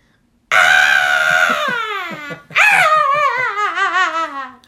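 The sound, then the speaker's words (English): A human voice imitates newborn babies crying, producing two long, high, wailing cries with a wavering pitch, the second rising sharply after a brief break. “And we can tell which kid had the most distinct cry. Like a wailing sound, like,”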